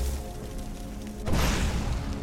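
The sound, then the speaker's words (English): A fireball spell is cast at a bandit in the video game Skyrim: a sudden burst of roaring, whooshing noise cuts in over quiet background hum and holds steady to the end. “Another bandit. Can I snipe him with a fireball?”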